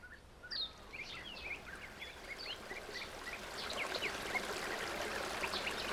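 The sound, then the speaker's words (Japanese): Small birds chirp and sing in quick, high twittering phrases over the steady babbling rush of a river, with the water noise holding constant throughout. “小鳥の声と川のせせらぎが聞こえてきました”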